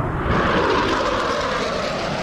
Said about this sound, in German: Zwei Düsenjäger donnern im Tiefflug über uns hinweg.